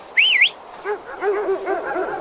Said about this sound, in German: Ich werde die Hunde loslassen.